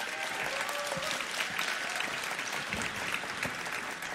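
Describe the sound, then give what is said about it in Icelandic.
Applause for a prize-winning Icelandic guitarist: steady, dense clapping from an audience that holds at an even, loud level for the whole stretch, with no break. “Sigurgeir Sigurðsson, gefum hann gott klapp.”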